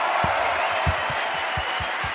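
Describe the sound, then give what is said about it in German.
Audience applause at the end of a live show in Stuttgart: faint, steady clapping and crowd noise with a few dull low thumps scattered through it. “Applaus für euch selber. Applaus für euch selber.”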